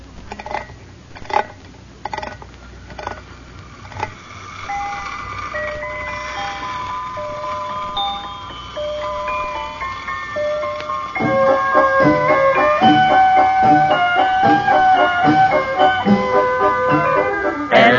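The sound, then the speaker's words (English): A wind-up toy merry-go-round spins and plays a tinkling mechanical melody, bright and steady, growing fuller and louder in the second half. “it's a little toy merry-go-round. Well, what do you want that for? Well, now, here, let me show you. First, you wind it up, and then you release the lever, and it spins around and plays music.”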